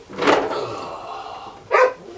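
A dog barks at a door: two loud, sharp barks about a second and a half apart, with quieter sound between them.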